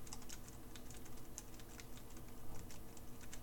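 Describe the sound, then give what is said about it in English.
Quiet keys being typed on a Braille keyboard: many soft, irregular clicks in a continuous run, faint and muted with no voice over them. “So these Braille keys were designed very carefully. They sit just so that each key sits under your finger, and when you press, the keys aren't that loud. If I'm typing,”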